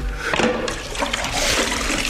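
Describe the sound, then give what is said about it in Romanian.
Water splashing and trickling as someone washes their face from a jug of fragrant wood, a continuous, moderately loud wet sloshing with no talk. “s'a deșteptat din somn și se spală pe față într-o bărdacă de lemn mirositor”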